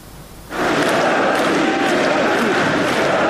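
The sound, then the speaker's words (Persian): Crowd chanting of "Russia, Russia" led by Putin and the leaders of four occupied Ukrainian regions standing hand in hand. A loud, dense roar of many voices breaks in suddenly after a quieter start and stays sustained throughout. “رئیس جمهوری روسیه و رهبران چهار منطقه اشغالی اوکراین دست در دست هم شعار روسیه روسیه سر دادند.”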